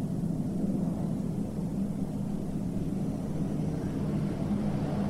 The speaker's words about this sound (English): There goes a plane over.